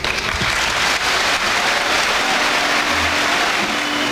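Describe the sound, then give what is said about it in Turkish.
Association members give their outgoing president a standing ovation after his farewell speech, a loud, sustained roar of many hands clapping that stays dense and even throughout. “Süleyman Seyman'ın konuşmasının ardından üyeler kendisini ayakta alkışlarken bazıları gözyaşlarını tutamadı.”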